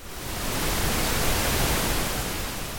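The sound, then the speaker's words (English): Steady pink noise, the lower, gentler relative of white noise, plays alone as an even, continuous hiss weighted toward deep rumble, rising in quickly at the start and holding level throughout. “No, your radio did not malfunction. That is pink noise. It's the lower, gentler cousin of white noise.”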